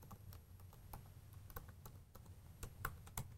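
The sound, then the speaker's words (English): A password is typed on a computer keyboard as a rapid, uneven run of many quiet key clicks, a few struck harder than the rest, with no voices. “So let me get that typed in.”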